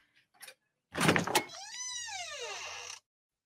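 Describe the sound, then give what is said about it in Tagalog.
A door being opened: a short rattling burst, then a long tonal creak that holds, rises slightly and slides down in pitch before stopping abruptly. “Buksan ko na kaya itong pinto.”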